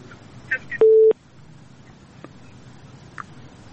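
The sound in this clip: A telephone busy tone sounds after a listener's call drops on a phone-in line. It is a single short, steady, low-pitched beep, with a couple of faint ticks before and after it.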